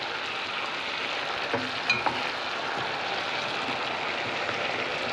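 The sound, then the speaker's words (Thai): Water is poured into a hot frying pan to make soup broth, giving a steady sizzling hiss. It stays fairly even throughout, with a couple of small clicks partway through and no voices. “ใช้น้ำนี้ เทใส่เป็นน้ำซุปครับ”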